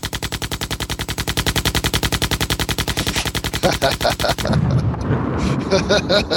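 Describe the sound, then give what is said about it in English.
A machine gun fire sound effect stands in for a drum roll before a prize winner is announced: a rapid, evenly spaced burst of loud shots for about four seconds, then heavier booming blasts and rumbling. “I am clicking the button that is going to pick the random selected winner. And here comes the machine gun drum roll.”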